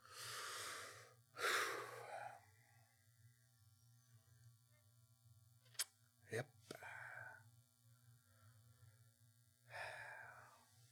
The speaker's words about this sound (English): I think I'll just breathe confidently for a while.